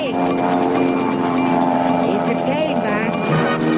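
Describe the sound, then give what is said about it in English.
A speedboat engine on a ride to Orcas Island in the San Juans gives off a steady, buzzy, low droning hum that stays continuous and fairly loud throughout. “KJR has 30 speedboat ride on the next sunny day of your choice to Orcas Island in the San Juans for a picnic lunch.”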